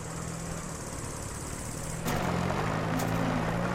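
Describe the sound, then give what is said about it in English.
Engine drone of a dark van driving over a rough, unpaved roadway: a steady, noisy motor rumble that grows a little louder about halfway through, with no voices. “A dark van moves along the unpaved roadway.”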